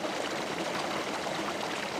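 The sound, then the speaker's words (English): Rushing water as fire hoses pump thousands of gallons out of a flooded opera house in Dresden into a river: a low, constant gurgling wash that keeps an even, moderate level throughout. “rows and rows of fire hoses pump thousands of gallons out of the Semper Opera House and into the River Elbe.”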